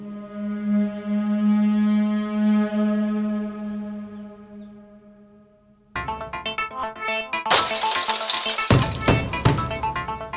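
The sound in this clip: Glass shattering as a sound effect: a long sustained humming tone fades away, then a sudden crash of breaking glass follows, with bright tinkling fragments spilling on for several seconds.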